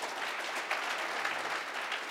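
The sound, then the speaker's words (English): Faint audience applause at a candidates' forum, a soft, even patter of clapping that continues steadily throughout. “Real quick, audience, it's okay to applaud.”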